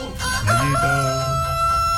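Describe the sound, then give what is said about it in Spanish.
A rooster crows once, a loud, drawn-out cock-a-doodle-doo that rises into a sustained, strained high note before trailing off, alone with no voices. “Levántate bien informado, porque si no, te canta el gallo. ¡Canta, gallo!”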